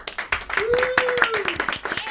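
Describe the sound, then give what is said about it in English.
A group of people clapping in a room full of lava lamps, rapid, uneven claps throughout, with a voice calling out over the applause. “We all need to clap and thank Scott.”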